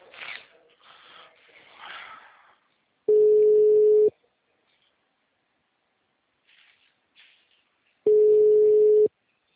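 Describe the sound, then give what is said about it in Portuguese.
Ringback tone on an outgoing phone call: two steady one-second beeps separated by several seconds of silence, after brief quiet talk at the start. “Liga, pelo menos chama.”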